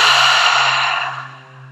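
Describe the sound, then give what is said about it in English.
A deep breath during a guided breathwork session gives a loud, airy rush of breath that fades away over about a second and a half above a steady low hum. “taking a deep inhale in through the nose and out through the mouth”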